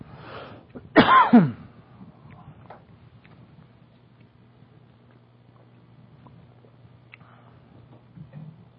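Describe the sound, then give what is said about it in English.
A speaker chokes and coughs: one sharp, harsh burst of two quick hacks, followed by near quiet with only faint ticking in the background. “Excuse me while I choke.”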